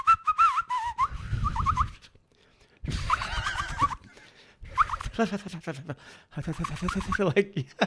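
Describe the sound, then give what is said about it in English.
A man's voice imitates awkward, poor whistling. It comes as several wavering, squeaky, breathy bursts separated by short pauses, with a gobbling, uneven quality. “man, my older brother can't whistle for shit. Like, what's his problem?”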